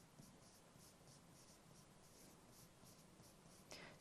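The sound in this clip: Chalk writes a sentence on a classroom blackboard in soft, rhythmic scratching strokes, many short scrapes in a steady pattern, faint throughout with a slightly sharper stroke near the end.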